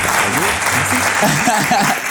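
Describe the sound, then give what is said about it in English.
Audience applause with dense, steady clapping at the opening of a talk session, continuing unbroken throughout while voices talk and call out over it. “Clap it up, y'all.”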